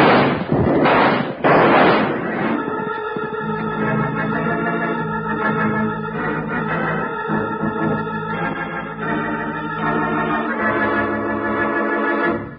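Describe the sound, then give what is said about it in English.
Rifle shots ring out in an old western radio drama gunfight: a few loud, sharp bursts crowd the opening seconds, then give way to sustained, swelling music that carries on to the end. “Unlimber that rifle and give it to him.”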